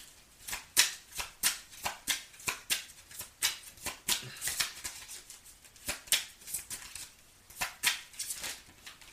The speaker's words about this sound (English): May I have some cards, please? Thank you. May I have some more cards, please?